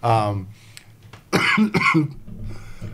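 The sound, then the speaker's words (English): A person coughs, giving a couple of harsh, loud bursts after a brief voiced sound at the start, with quieter breathy noise trailing afterward. “while I cough myself out all of a sudden”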